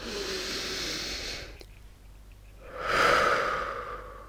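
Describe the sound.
Breathing out during a guided relaxation breathing exercise: soft, airy breaths with no talk, one long breath at the start, a quiet pause, then a louder, hissing breath.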